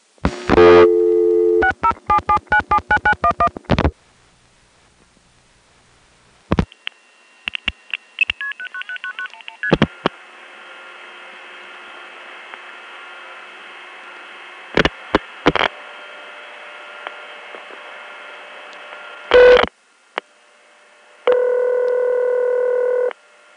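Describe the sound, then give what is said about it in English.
Telephone dialing of a long-distance call to a centralized intercept in Binghamton, New York, area code 607: a rapid run of touch-tone digits, then clicks, stepped tones and a long steady tone, ending with a final tone. “let's make some long-distance calls to centralized intercept. The first few I want to demonstrate are all of the same type. This first call is from my west side line, and it goes to the centralized intercept in Binghamton, New York.”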